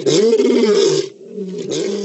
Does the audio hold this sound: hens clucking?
no